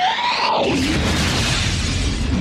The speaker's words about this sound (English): Here's the first weird fire sound.